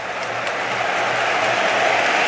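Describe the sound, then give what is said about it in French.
A football stadium crowd applauds as England bring on John Stones as a substitute. The clapping and crowd noise form a broad, steady roar that stays loud and even throughout. “Ah, il est applaudi d'ailleurs. Et l'entrée d'un vieux serviteur des Three Lions. John Stones.”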